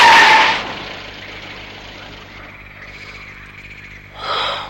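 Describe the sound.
A car engine starts with a loud burst of noise, then settles into a low, steady idling rumble with a faint rhythmic pulse. A short hissing swell follows near the end.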